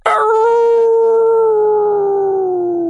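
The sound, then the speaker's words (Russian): A wolf, the leader of its pack, howls in one loud, sustained call whose tone holds steady and sinks slightly toward the end, with no other sounds. “Завыл царь волчьего племени и шагнул вперед.”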